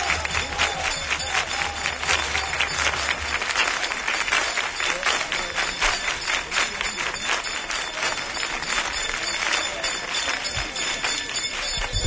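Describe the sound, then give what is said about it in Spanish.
Applause from a crowd greeting the Huelva brotherhood's entry into El Rocío during the pilgrimage, with its silver cart in the street: loud, dense, continuous clapping that holds steady throughout without a break. “el aplauso”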